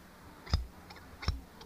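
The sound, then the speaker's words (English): Scissors snip while a parent trims a little girl's hair. Two faint, crisp cuts about three-quarters of a second apart, each followed by a lighter click. “Hi, I'm trimming my little girl's hair.”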